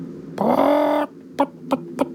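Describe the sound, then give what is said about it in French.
A large hen clucking: one drawn-out, throaty squawk followed by three short, sharp clucks spaced at a fairly even rhythm. “Mon Dieu, mais oui, c'est une poule, et une grosse en plus.”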